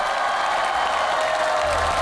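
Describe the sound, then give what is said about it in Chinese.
Audience applause on a Chinese stage show for a team of children, a brief dense wash of clapping and crowd noise, steady and loud from start to finish. “太厉害了， 来掌声送给你们。”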